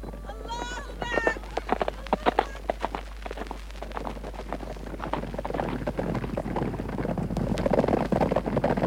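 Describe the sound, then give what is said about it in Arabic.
Horse hooves gallop in a historical drama about mounted soldiers, a rapid thudding that grows denser and louder toward the end, with voices and wind noise near the start. “هيا اركب جوادك واتبعني أسرع.”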